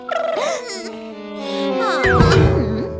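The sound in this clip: A human voice imitates an elephant's trumpeting with high, wavering tones that swoop up and down in pitch. It sounds continuously for about three seconds and grows slightly louder toward the end.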